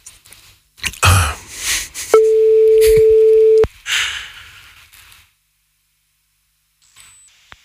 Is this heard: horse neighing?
no